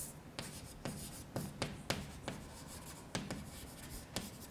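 Someone writes by hand during a mathematics lecture on matrices, making a series of short, sharp scratching strokes at an irregular pace over a quiet background, with no one speaking.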